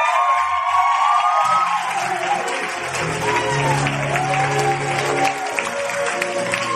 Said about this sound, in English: Can we please put your hands together and welcome to the stage your MC for the night, Lizzie Allen!